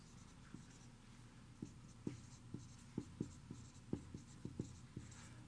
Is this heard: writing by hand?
yes